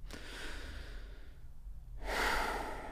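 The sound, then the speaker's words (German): Deep, slow breathing during a guided relaxation exercise: a long, hushed inhale, a short lull, then a louder, airy exhale, all soft and faint. “Also, lass uns zusammen erstmal drei tiefe Atemzüge nehmen.”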